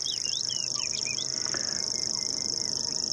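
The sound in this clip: Birdsong at the De Wieden marsh in Overijssel after sunrise: a quick run of short, high chirps and whistles in the first second, set over a steady, shrill insect-like drone that lasts the whole clip.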